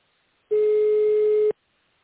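A telephone line tone sounds while a caller waits for a company secretary to answer. It is a single steady, mid-pitched beep lasting about one second, with silence before and after.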